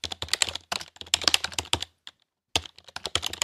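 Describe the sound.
Rapid typing on a computer keyboard, a dense run of crisp key clicks that stops for about half a second partway through, then resumes at the same quick pace with no voices.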